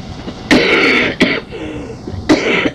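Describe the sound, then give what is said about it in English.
Coughing and throat clearing in three rough bursts: a long, harsh one, a short catch, then another harsh hack, fairly loud against a quiet background. “you came at a wrong time. I'm coughing.”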